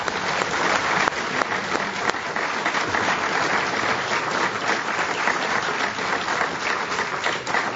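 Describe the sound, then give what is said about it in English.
An audience applauds to thank a speaker at a Commonwealth Club of California evening event: dense, steady clapping from a crowd, sustained at an even level throughout. “Please join me in thanking Joel Brinkley for his comments here tonight.”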